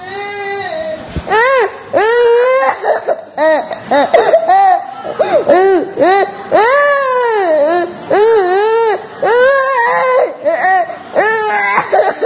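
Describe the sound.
A lost infant at a pilgrimage site cries in loud, repeated wailing bursts, each high sob rising and falling, with short catches of breath between them.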